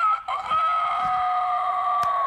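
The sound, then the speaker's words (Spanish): A rooster crows on a farm in one long, loud call that holds a steady high pitch and sags slightly toward the end, filling the whole stretch. “¡Ay! Ese gallo ha cantado toda la mañana.”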